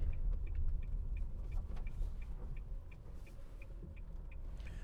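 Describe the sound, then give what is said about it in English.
Turn indicator ticks inside a Nissan Leaf electric car driving slowly down a dirt driveway. Many crisp, evenly spaced clicks repeat in a steady rhythm, faint over a low, continuous rumble of the tyres on the ground. “And this is the sound of it. We're going down a dirt driveway now. Got the indicators on.”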